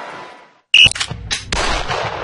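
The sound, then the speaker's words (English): Gunshots crack out at a shooting range, a few sharp, loud reports with short ringing decays after a quiet opening. “Whether you're dropping in to shoot or ready to become a member, this is shooting taken to the next level. With a state-of-the-art range”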